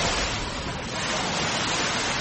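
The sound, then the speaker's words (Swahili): Surf on the Indian Ocean shore at Mombasa Old Town, heard as a steady, dense wash of breaking water with no clear individual wave strikes, continuous for the whole moment. “Hivi sasa nimesimama katika ufuo wa Bahari Hindi. Hili ni eneo la mji wa kale, kwa Kiingereza Old Town, katika kaunti ya Mombasa.”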